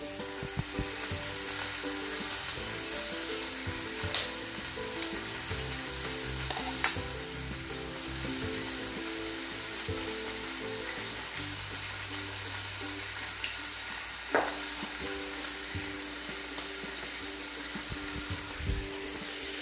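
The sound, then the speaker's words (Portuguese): Steady sizzling of an egg frying in a pan, cooked with a soft yolk: a continuous, moderately faint hiss and crackle with a few small clicks and taps throughout. “Agora eu vou fritar um ovo.”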